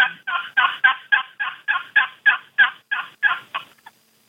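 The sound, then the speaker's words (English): Turkey yelps worked on a wooden box call with the lid left on the paddle: a steady, evenly spaced run of about a dozen raspy, nasal strokes of equal loudness, ending in a faint trailing note. “when I make the yelp, I don't lift the lid off of the paddle at all, off the box call. You leave the lid on there”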